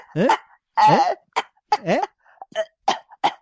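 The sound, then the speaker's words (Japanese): A rapid string of harsh coughs after choking, coming in many uneven bursts, some of them voiced and rasping, with short gaps between the spasms. “むせてむせて、あ、咳してんの”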